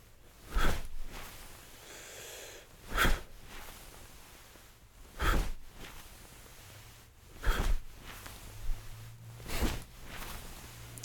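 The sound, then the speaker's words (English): Deep breathing in and out during a simple chi-waking exercise: five loud, breathy rushes at steady intervals, with quieter breath and faint rustling between them. “Inhale. Exhale.”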